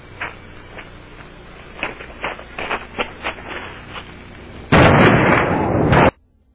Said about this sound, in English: And see, the fire department was already miles down the road, and they were sitting on the side of the road going, we're not pulling up to that, and it's a good thing they did. Because this blast here, wait for it.